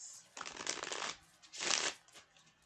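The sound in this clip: Tarot cards being shuffled and drawn, heard as two separate bursts of crisp, papery riffling and shuffling, the second louder, with short quiet gaps between them and no talk.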